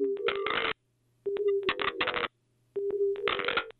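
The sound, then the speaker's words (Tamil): A telephone line gives dialing tones in three repeated cycles. Each cycle opens with a short, steady low tone and breaks into a harsh, buzzing run of clicks before falling silent. “Okay, dial பண்ணுறாங்க.”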